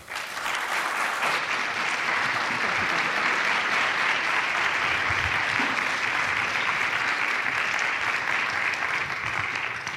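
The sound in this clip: Audience applause welcoming a professor before an evening talk in Santa Barbara: dense, continuous clapping holds at an even, loud level for the whole ten seconds.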